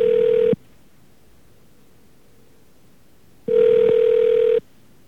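A telephone ringback tone sounds as a toll-free call to a toll-pass service center connects. Two steady mid-pitched ring bursts, the first short and the second about a second long, are separated by a few seconds of near silence.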